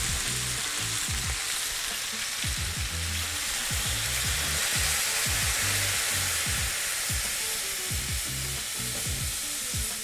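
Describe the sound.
Loud, continuous sizzling as broth goes into a hot pan of vegetables, a dense frying hiss with soft stirring knocks running through it and no voices.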